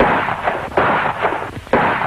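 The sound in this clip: Gunshots ring out from an old film, a few sharp, rough bursts at irregular intervals over a noisy, dull soundtrack.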